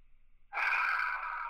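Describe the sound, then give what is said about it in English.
A slow, deep inhale taken during a guided breathing exercise: after a short pause, a steady, airy rush of breath is drawn in for about a second, with no talk. “So you take an inhale for a count of three, inhale, one, two, three”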